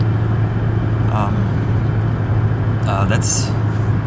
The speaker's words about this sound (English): So I'm on my way home. I'm driving through, I think I'm in Strongsville right now on 71.